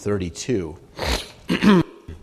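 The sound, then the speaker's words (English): A person clears their throat because of peanuts stuck at the back of it, making a harsh rasping burst set among loud voiced sounds. “I had some peanuts right before I left the house. They seem to be just stuck in the back of my throat. Excuse me.”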